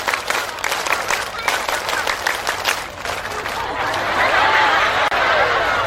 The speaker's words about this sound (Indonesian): Semuanya coba, tepuk satu. Nah, gak kompak kayak gini. Tepuk satu. Tepuk dua. Tepuk tiga. Tepuk pramuka.